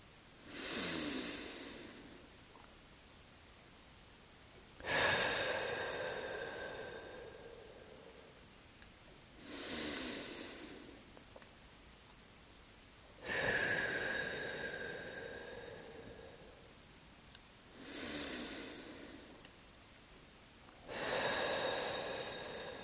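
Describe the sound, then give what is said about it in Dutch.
Three deep breaths, each a softer inhale through the nose followed by a longer, louder whooshing exhale through the mouth, evenly paced with quiet pauses between them. “breng je aandacht naar je ademhaling. Adem 3 keer stevig in door de neus en uit door de mond.”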